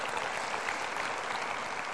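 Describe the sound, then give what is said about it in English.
Audience applause, a moderately quiet, even wash of clapping from many people that continues without a break, with no voices standing out. “And that applause is for her, because she's put up with me.”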